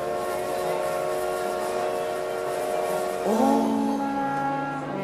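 A train whistle blows in long, steady tones over a continuous broad rumble. A second, lower whistle note slides in past the midpoint and holds to the end.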